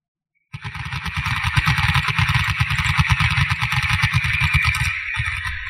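A motorcycle engine bursts into sound and runs loud and steady with a rapid, low, throbbing pulse, dipping slightly just before the end.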